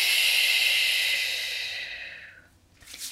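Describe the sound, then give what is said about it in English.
A deep belly breath taken after rubbing scented oil between the palms. A long, airy hiss slowly fades over about two and a half seconds, then another breath begins, with no talk. “I'm going to take two deep belly breaths for you guys. Here we go. I'm going to hold it for three seconds.”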